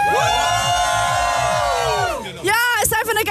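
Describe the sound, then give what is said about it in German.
Festival crowd cheering and whooping on a hot day at an open-air summer festival by a lake in Cologne: loud, sustained massed shouting and high whoops, briefly dipping near the end before another burst of cheers. “Also ihr hört's, die Stimmung hier beim Rainbow Festival in Köln am Fühlinger See ist richtig klasse.”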